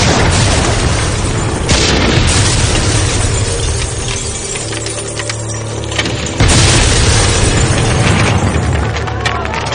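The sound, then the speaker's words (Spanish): Houses explode in a dramatized film scene as burning oil reaches them, a loud, continuous roar of blasts and rumbling that surges again partway through and stays dense throughout. “El aceite va incendiándose en dirección a las casas mientras la canción se acaba. Las casas explotan”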